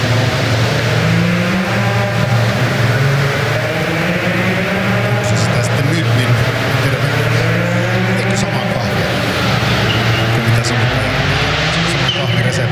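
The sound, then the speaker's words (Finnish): A rally car drives through to the finish of a special stage, its loud engine roaring without a break, its pitch wavering up and down throughout. “Oliver Solberg joka tapauksessa erikoiskokeen maaliin.”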